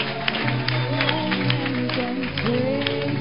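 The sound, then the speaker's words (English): A church audience claps for Jesus during a healing service, with crisp rhythmic hand claps over voices and sustained tones. “Somebody clap for Jesus!”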